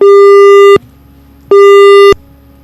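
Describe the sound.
Telephone busy signal on a failed listener call-in: two long, steady, mid-pitched tones separated by a short silence, loud and alone.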